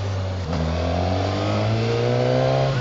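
A motorcycle accelerating through the gears: a loud, steady engine note whose pitch dips briefly near the start, then climbs smoothly and continuously, with no talk over it.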